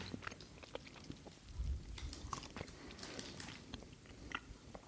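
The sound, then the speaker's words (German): Biting and chewing of a Eurocrem Blok chocolate hazelnut bar with a milk layer in the middle: a few soft crunches, then quiet, steady mastication, faint throughout. “Man soll das ja auch nicht wie eine Schokolade abbrechen, sondern das legst du dir aufs Brot. Bitteschön. Ich habe jetzt kein Brot. Wir probieren das jetzt.”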